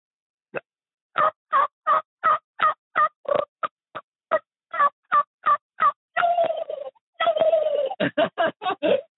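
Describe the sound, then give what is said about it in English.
A man imitates a wild turkey's call using only his mouth, with no call device. He gives a rapid series of many short, sharp yelps, broken by two longer rattling gobble-like bursts, with no other sounds. “Oh, I'll do a turkey call with no turkey call at all. Just all mouth.”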